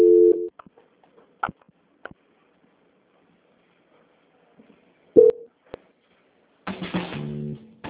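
Telephone line tones during a call transfer: a short beep at the start, scattered clicks, another brief tone midway, then a run of stepped beeps at the end, all over a quiet line.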